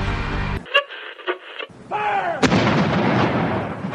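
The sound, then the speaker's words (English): Artillery fire from a 41-gun salute on Parliament Hill, Ottawa, for a royal arrival: a deep, forceful boom bursts out and trails into a long rolling rumble. “In Ottawa, the welcome was loud and clear. 41 guns on Parliament Hill blasted a salute to the royal arrival. The booming sign of approval was an echo of what was heard in Britain today.”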